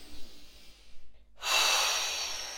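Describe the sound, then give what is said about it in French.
One long, breathy exhale released during a French guided relaxation exercise. It surges up after a brief hush and slowly fades, and faint, softer breath sounds come before the pause. “Expiration et relâchement.”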